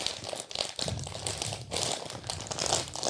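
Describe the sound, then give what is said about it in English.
Crinkling wrapping paper as a birthday present is unwrapped, a faint, continuous papery rustle with uneven crackling swells and no clear pauses. “Let me see it. let me open your birthday present. Help me. This can't be that hard, right? It's kind of hard.”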